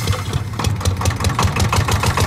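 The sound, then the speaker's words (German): A vibrating plate compactor's engine runs steadily with a rough, low chugging and fast, regular pulses. It is loud and continuous with no other sounds. “Könnte Trecker sein, ne? Es könnte auch eine Rüttelmaschine sein. Ist eine Rüttelmaschine.”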